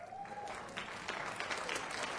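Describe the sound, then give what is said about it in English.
Singers clap together in a dense, even round of applause that continues steadily, with a brief tonal voice-like sound near the start. “All the singers are clapping right now.”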